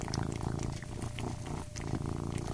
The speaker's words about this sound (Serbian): Kako samo zadovoljno prede, dobro bi ova crna mačka pristajala uz neku crnu vešticu.